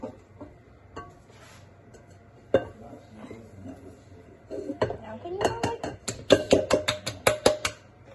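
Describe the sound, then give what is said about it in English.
Food is dumped from a bowl into a pan during home cooking. Sparse, faint clinks and knocks early on build into a busy clatter of metal and crockery, with many sharp, bright strikes near the end. “Just pick up the whole bowl and dump it in there.”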